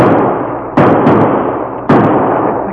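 Gunshots fired at a fleeing man: three sharp, loud reports spaced unevenly over a continuous rushing noise bed.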